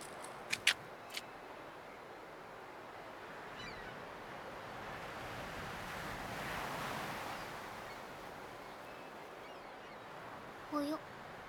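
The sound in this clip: Ocean waves wash onto a beach in a soft, continuous hiss of surf that swells gently in the middle and then eases back, faint throughout.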